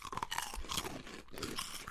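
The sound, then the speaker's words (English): Crunching on cheesies, cheese puff snacks: a quick series of crisp, close chewing crunches, faint and without talk. “No, that's pure crunch. Oh, that is a hell of a crunch. That's pure crunch.”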